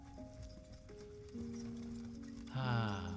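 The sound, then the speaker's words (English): Faint hoofbeats of a horse pulling a covered wagon along a long, rocky country road, a light clip-clop under sustained musical tones that step through changing pitches and grow fuller toward the end. “Bar Biel sits upon a wagon with a passenger in the front. That's true. A covered wagon on a long, rocky road in the country.”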